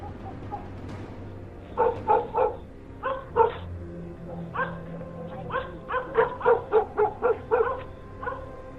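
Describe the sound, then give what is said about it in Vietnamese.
Dogs barking at night at the edge of a village by a river: many short, sharp barks in irregular clusters, some quick and overlapping, others spaced apart, over a low background. “thỉnh thoảng nghe tiếng chó cắn ma cứ nhấp nhà nhấp nhặng”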